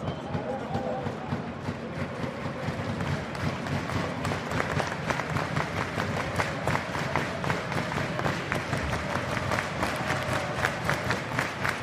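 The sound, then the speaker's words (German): Dense, rapid slapping of cardboard clappers from a euphoric stadium crowd at a football match, as Mainz win their first corner late in the game; many sharp claps merge into a continuous, lively crowd din. “Und Klatschpappeneinsatz beim euphorisierten Tribünenpublikum.”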